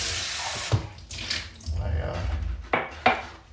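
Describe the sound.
Water running from a tap while something dirty is washed, coming in noisy gushes interrupted by a few sharp clinks and knocks like dishes or cutlery being handled.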